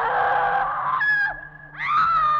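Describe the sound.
A harsh, drawn-out scream and squealing creaks as a heavy door opens in old masonry, with several strained, tonal cries whose pitch bends, loud against a low rumble.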